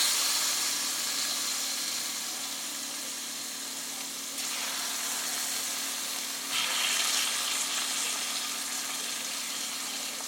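Onions fry in a pan with a soft, steady sizzling hiss that runs for about ten seconds, briefly growing brighter a couple of times, with no talk over it.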